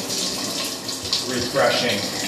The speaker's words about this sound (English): Yeah, cold shower.